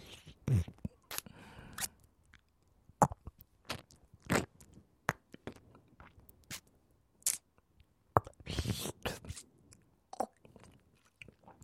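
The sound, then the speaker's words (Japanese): Wet ear-eating mouth sounds in an ASMR recording: many irregular smacks, licks and nibbling clicks. They come in scattered bursts, some clustered and louder, with quiet gaps between and no talking. “ねえ、お姉さんの耳も食べたくなっちゃった。”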